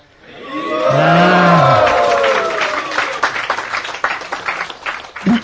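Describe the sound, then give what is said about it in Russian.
A crowd in a temple loudly shouts "Hari Bol" together to greet a guest. The sustained chorus of voices swells and then falls in pitch, giving way to scattered clapping and cheering. “В храме Радханата Махараджа, когда они приветствуют гостей, они поднимают руки вверх и очень громко кричат «Хари Бол». Еще раз.”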